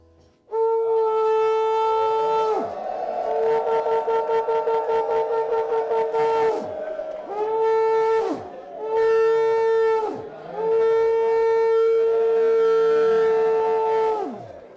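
A shofar, or ram's horn, is blown in several long, brassy blasts separated by short breaks, one stretch breaking into rapid pulsing notes. The bright, harmonic-rich tone is loud and sustained.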